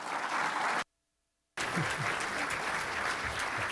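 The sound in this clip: Dense, steady applause from an audience welcoming a lecturer to a lecture. The clapping cuts out abruptly to silence for under a second, then resumes just as full and keeps going.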